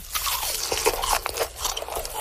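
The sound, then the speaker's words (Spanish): Crisp, crackling crunches of pork skin seasoned with salt, pepper and lime, bitten and chewed in a quick series of sharp snaps over about two seconds, with no talk. “cocer correctamente la piel del cerdo, salpimentando un poco y dejando el toque de limón para que quede así como un crunchy delicioso. No sé si ustedes han escuchado acá, pero suena algo así.”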